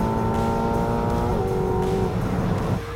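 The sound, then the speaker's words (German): A powerful eight-cylinder sports car with a 340 km/h top speed drives on a public road. Its engine gives a loud, continuous drone, and the harmonic note shifts in pitch a few times. “Aber auch so macht der Achtzylinder sichtlich Freude.”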